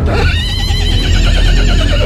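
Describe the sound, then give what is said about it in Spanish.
A horse at a stud farm gives a loud, sustained whinny whose pitch wavers rapidly throughout, over a heavy low rumble. “El caballo corriendo junto a una de las motos, mientras los delincuentes se alejan del lugar, se vieron a través de cámaras de videovigilancia de vecinos.”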